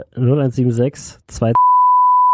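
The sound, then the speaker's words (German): A steady, high censor bleep cuts in right after talking, covering a spoken phone number and holding loud and unbroken to the end. “Wir werden sie piepen.”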